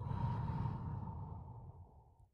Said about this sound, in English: Once more, breathe in. And breathe out.